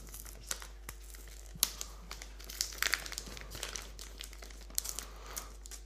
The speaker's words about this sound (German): Liebt ihr Geschenke auspacken auch so wie ich?